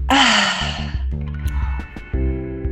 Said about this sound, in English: So we actually always end with taking a deep breath together, letting it out. Are you ready? I'm ready. Okay, inhale. And let it out.